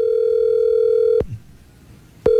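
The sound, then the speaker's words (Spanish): Telephone ringback tone as a call is dialed: a steady mid-pitched tone holds for a little over a second, breaks into a pause of about a second, then starts again. “Está marcando”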